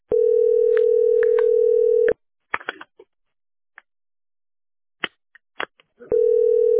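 A steady, loud telephone line tone while calling an office accounting department from a work phone. It cuts off abruptly for a few seconds of scattered clicks and faint noises, then the continuous tone resumes.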